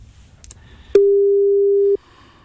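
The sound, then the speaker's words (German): A telephone ringback tone sounds while someone places a call: a single steady, mid-pitched beep lasting about one second, clean and loud over faint background noise. “Mal schauen, ob Jensen Bensen rangeht.”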